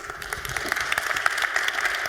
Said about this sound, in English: a warm round of applause